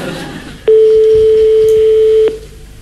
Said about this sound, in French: Nous composons le numéro de téléphone de Jocelyne. Attention. Ça sonne. Ça ressonne.